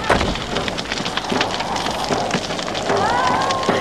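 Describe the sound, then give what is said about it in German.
Fire crackles as a house burns, with dense, steady popping and hissing throughout and a voice briefly heard over it. “Das Haus brennt.”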